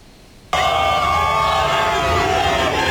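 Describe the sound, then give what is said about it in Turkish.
A crowd cheers loudly outside a hotel, welcoming a national team before its first World Cup match. The roar erupts abruptly after half a second of quiet and stays loud and dense to the end. “Kendilerini bekleyen kalabalık tezahüratlarla desteğini gösterdi.”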